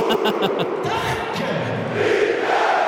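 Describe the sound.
A football stadium crowd roars after Rapid's goal in a UEFA Europa Conference League match, a dense, sustained wall of loud cheering and shouting that holds steady throughout.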